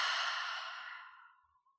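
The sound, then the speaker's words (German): One long, deep exhale out through the mouth, part of a slow breathing exercise, soft and airy, fading gradually to silence, with no talk. “Und nach der nächsten Ausatmung atme nochmal tief durch die Nase ein und durch den Mund aus.”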